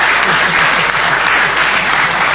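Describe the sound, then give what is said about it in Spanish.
Loud audience applause for two people asked to stand up in the crowd at a show, a dense, unbroken clatter of clapping at a constant level throughout, with no voices over it. “Vamos a aplaudirlos.”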